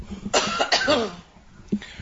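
A person coughs with an early-morning throat: a few harsh, throaty coughs, two close together and one after a short pause, fairly loud and with no speech.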